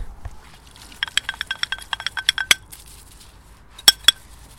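Dishes and cutlery clink as washing up is done in a bucket in a field outdoors at about 2 degrees Celsius. A quick run of many sharp clinks is followed by a pause, then two more distinct knocks.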